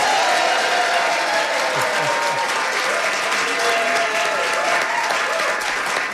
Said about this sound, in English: We have a wonderful audience. Here's what they sound like.